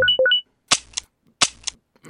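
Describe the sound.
Gunfire: sharp, cracking shots in two quick pairs with short pauses between them, after a few brief electronic blips.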